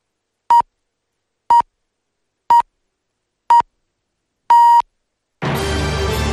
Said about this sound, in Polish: To pikanie przed chwilą oznaczało, że wybiła godzina ósma.